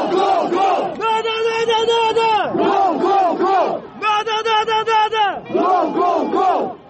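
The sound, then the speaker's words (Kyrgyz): Football ultras and spectators in a stadium chant loudly in unison, their voices rising in repeated rhythmic phrases with short breaks between them. “Ультрастардын арасында отуруу футболго болгон кызыгууну арттырат. Алардын деми менен калган көрүүчүлөр да кол чаап, колдоп башташат.”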